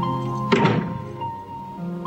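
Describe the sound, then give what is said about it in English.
A front door of a small house being opened gives one dull, fairly loud thunk, with a steady low hum continuing before and after. “She opens the front door.”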